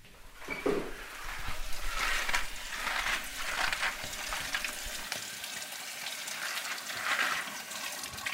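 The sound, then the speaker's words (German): A kitchen tap runs while vegetables are washed for a shared meal in a co-living house, giving a continuous, fairly faint hissing and splashing stream with uneven surges and no talk. “hat gerade den Ofen angestellt und beginnt, das Gemüse zu waschen.”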